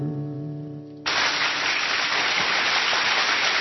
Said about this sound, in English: Unrestrained enthusiasm from our massive studio audience.